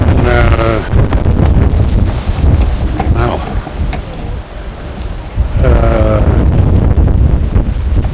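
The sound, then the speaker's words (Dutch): Wind buffets the microphone outdoors at Schiphol airport, a loud, steady low roar with gusty swells and a dip midway. Brief voice-like sounds surface near the start and again later. “Het waait een beetje”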